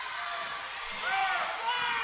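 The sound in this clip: A basketball dribbled during a game, with a run of soft, rhythmic bounces beneath a broad wash of crowd noise, while a commentator talks over it.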